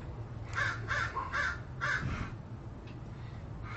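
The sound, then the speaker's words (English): Crows caw in a quick run of harsh, rasping calls, several in the first two seconds, followed by quieter background with a steady low hum and no talk. “Wow, I never had birds crow this much right where I'm at.”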